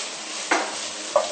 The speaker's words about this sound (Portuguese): Agora eu vou acrescentar o azeite de dendê,